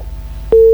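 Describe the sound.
Telephone disconnect tone after a phone call drops mid-conversation: a single steady, loud, continuous tone begins just past the midpoint and holds to the end over a faint low hum.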